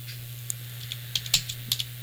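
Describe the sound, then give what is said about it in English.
Someone types a short note on a computer keyboard: a few light, irregular key clicks with brief pauses between them, over a steady low electrical hum. “Let's see, got to type a little note here.”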